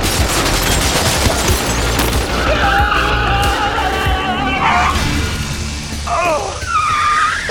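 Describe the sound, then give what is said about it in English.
Rapid, sustained machine-gun fire from guns mounted on car roofs, loud and dense throughout, mixed with engine roar and tire noise. “You mounted machine guns on your roofs?”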